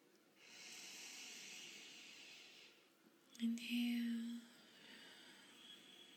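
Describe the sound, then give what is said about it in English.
A person inhales and exhales during a guided breathing exercise. A long, steady airy hiss of about three seconds is followed by a louder, shorter exhale carrying a brief throaty, voiced tone. “Inhale. And exhale”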